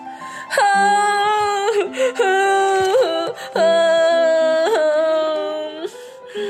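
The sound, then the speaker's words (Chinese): A little piglet girl in a children's story cries in a drawn-out wail: long, steady, sustained tones with a few brief breaks between them, loud throughout. “没想到他听见有人在哭。”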